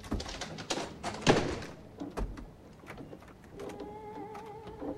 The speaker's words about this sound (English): She stares in horror as the door handle begins to rattle.